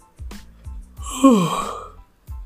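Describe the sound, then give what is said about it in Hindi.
A long, drawn-out yawn from a very tired person, a breathy voiced sweep that falls in pitch, with a few dull low thumps before and after. “Holy shit another one, I am really sorry for that man, मुझे ऐसे बहुत सारी उबासी आ रही है”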